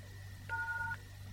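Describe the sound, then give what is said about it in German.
A single telephone keypad tone from pressing the hash key: a steady two-pitch beep lasting about half a second, heard over a faint constant electronic hum. “Wenn Sie eine Mailbox haben, drücken Sie bitte die Raute-Taste.”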